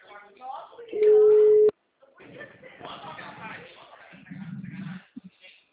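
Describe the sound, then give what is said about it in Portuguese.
Ringback tone of a telephone on an outgoing call: one loud, steady tone of under a second, with people talking before and after it. “Fazer ligação, gente. Fazer ligação.”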